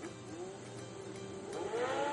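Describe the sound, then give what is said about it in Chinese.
Engine of a red race car speeding past in a bedtime story about a toy-town race, a steady revving hum that climbs in pitch toward the end. “赛车的声音又出现了。哦，快看，赛车从拐角开了过来。哦吼！红色赛车的速度太快了”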